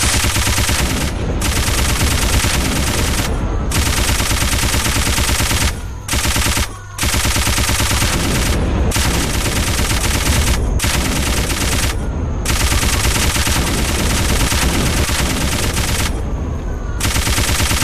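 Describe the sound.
Rapid gunfire rattles through a video game boss fight against an enemy that launches nukes: loud, sustained automatic bursts that run almost unbroken, with a few brief pauses.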